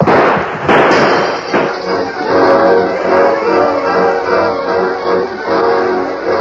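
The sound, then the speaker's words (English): Gunshots ring out in a radio drama, as a dense, loud barrage of crackling bursts and pops that runs without pause through the whole stretch. “The entire ranch was aroused by the shooting.”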